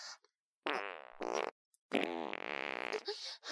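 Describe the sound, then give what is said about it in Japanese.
A few long, loud, rasping farts, each rippling and buzzy, come in quick succession with short silent gaps between them. “臭いおならの匂い私の鼻まで香っちゃってます。”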